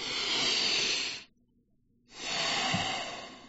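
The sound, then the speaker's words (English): A deep breath is drawn in and then blown out. Two long, breathy hisses are separated by a brief silent pause, fairly quiet and with no talk. “All right, humans, let's just take a breath.”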